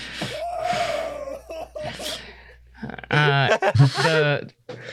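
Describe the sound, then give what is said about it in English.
A voice imitates a person crying and wailing in a hall, first with a long drawn-out wavering wail, then a short pause followed by louder, shaky, sobbing cries with gasping breaths. “You just hear crying. You're wailing in the hall.”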